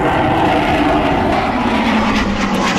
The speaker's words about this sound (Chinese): 上午11点，三架使用全新迷彩涂装的国产四代机歼20战机从航展馆上空飞过。